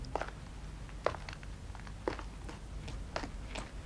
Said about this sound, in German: Die schnellen Schritte eilen weiter über das Pflaster und die 3 Stufen hinauf in die Seefahrerschenke.